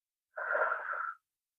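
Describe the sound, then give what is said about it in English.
A single airy, slightly wheezy breath taken during a guided tapping coaching exercise, one smooth rush lasting under a second with silence before and after. “let's go ahead and take another inhale and exhale”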